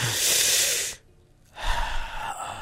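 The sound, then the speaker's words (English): A deep breath taken together: a long, loud breathy rush, then a brief near-silent pause, then a second rough, airy breath sound that carries on to the end. “Take a breath now. Come on, let's all take a breath together.”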